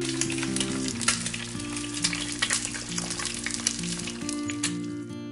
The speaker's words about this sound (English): she fried eggs on the stove